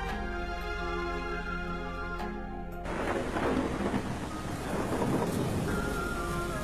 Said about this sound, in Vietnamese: lại thành ra cơn giông tố bất ngờ kỳ lạ đến như vậy. Trên bầu trời lúc ấy bắt đầu cuồn cuộn mưa gió.